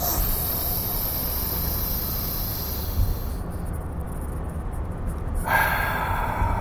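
A person takes a deep breath and lets it out, a loud, continuous, breathy rush of air lasting several seconds that shifts in tone partway through.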